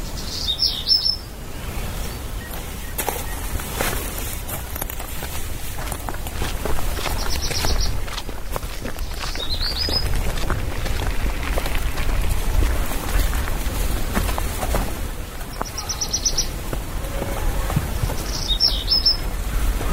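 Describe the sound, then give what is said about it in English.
Forest ambience with birdsong: a few short bursts of high bird chirps recur at intervals over a quiet, steady background of low outdoor noise. “So maybe we have a listen for a couple of minutes and see what sounds you can hear from the forest.”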